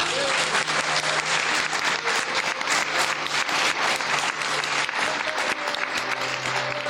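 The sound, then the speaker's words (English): Audience applause at the close of a live show at Winchester Science Festival, a dense, continuous wash of many hands clapping that stays loud and steady from start to finish. “I'd love you to give a huge round of applause to our various guests.”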